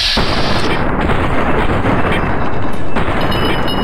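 Gunshots from a gun in a video game: a loud, dense roar of gunfire that holds at a steady level for the whole clip, with no separate, countable shots.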